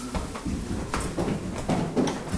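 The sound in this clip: A cellar door is shut from the staircase, with a few soft clunks and faint scraping over low background noise.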